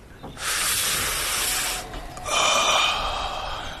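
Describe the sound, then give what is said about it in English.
Breathy inhalation of smoke from burning leaves: two long, loud hissing breaths, the second with a faint whistling edge, with no talk. “Here, let's light up these leaves. I want you to inhale.”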